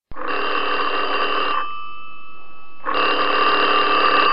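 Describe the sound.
A telephone rings in two long, loud, buzzing bell bursts separated by a pause of about a second. A faint thin tone lingers in the gap.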